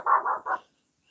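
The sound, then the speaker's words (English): A dog barks at night, three short muffled barks in quick succession, then silence. “And so does my dog tonight. Sorry for all the barking, but I'm sure it might be keeping everybody awake.”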